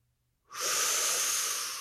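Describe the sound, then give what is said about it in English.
A person inhales a hot breath in a single long, loud, hissing draw of air that starts abruptly after a moment of silence and holds steady to the end. “let's get to the hot breath-isode. So now you know, there's only thing one left to do, and that is inhale a hot breath.”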